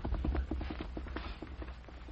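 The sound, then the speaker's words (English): Horse hooves clattering as a rider gallops rapidly away from a mountain pass, many quick, rhythmic clip-clop beats in a steady run that slowly grow a little quieter. “A few moments later, the Winchester was shoved quickly into a saddle boot, and the man who triggered it rode rapidly away from Mule Jaw Pass.”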